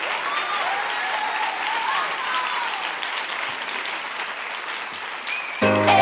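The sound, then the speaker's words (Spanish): Steady applause from an audience, a continuous dense patter of clapping for about five and a half seconds, cut off by a brief tonal sound at the end. “Un fuerte aplauso para ellos.”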